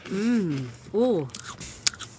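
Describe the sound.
Someone bites into a cracker topped with a spread: a few brief, crisp crunches follow voiced sounds from people at the start.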